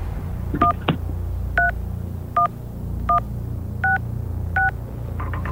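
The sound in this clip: Phone keypad tones dialing a number on a phone held up to a microphone: six short, evenly spaced two-note beeps over a low hum, with a click near the start and a faint sound at the end.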